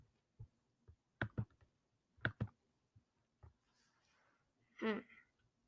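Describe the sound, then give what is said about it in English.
A computer mouse clicks faintly on a painting to preview a throwback paint scheme. There are several sharp, quiet clicks, some in quick pairs, spaced irregularly, followed near the end by a brief murmured vocal sound. “I'm gonna have to click on this painting to see.”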